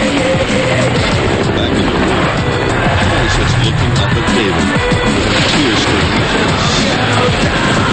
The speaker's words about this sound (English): Outside, helicopters move over the city.